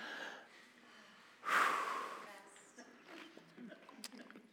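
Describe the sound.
A group takes one deep breath together after a prayer, a sudden swelling rush of inhaled air that tapers off slowly, followed by faint scattered rustles and soft sounds.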